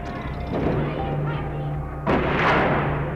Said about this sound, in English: A short time later, soldiers began to open fire on people in the Rossville Street area.